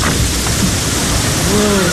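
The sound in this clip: Steady heavy rain pours during a storm, a dense hiss of rainfall with faint low thunder rumbling beneath and a brief tonal sound near the end.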